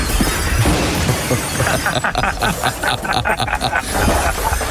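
Harsh, continuous crunching and shattering as a car's left side and right door crash, a dense, loud grinding noise with rapid crackling pulses toward the middle.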